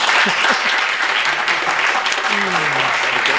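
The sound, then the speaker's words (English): Bookstore audience applauding to welcome author Sam Harris, with loud, dense clapping throughout and a voice briefly heard near the end. “Ladies and gentlemen, please welcome Sam Harris.”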